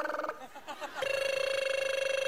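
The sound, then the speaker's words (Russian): A mobile phone rings with a steady electronic tone that pulses rapidly and evenly, starting about a second in after a brief voice and continuing loudly to the end. “Это же моя мобила. Алло, кто это?”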